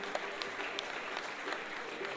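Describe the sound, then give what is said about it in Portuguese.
Sparse applause from an audience at a samba gathering: scattered, irregular claps that sound thin and spaced out, like the last kernels in a pot of popcorn finishing popping. “Pessoal, se tem uma coisa que não se paga aqui é pra bater palma. Palma pro presidente, parecia aquela panela de pipoca, quando tá terminando a pipoca”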